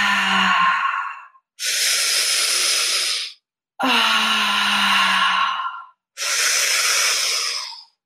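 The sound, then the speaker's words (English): Four long, forceful exhales during guided breath work, each a loud rushing breathy hiss lasting one to two seconds, separated by short quiet gaps. “Half of the way, we're almost done. Exhale.”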